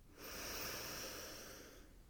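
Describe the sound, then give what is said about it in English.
A deep breath drawn in through the nose, heard as a soft, steady airy hiss that swells and lasts about one and a half seconds, quiet and alone. “close down the eyes, relax the face, soften the jaw, take a big breath in through the nose.”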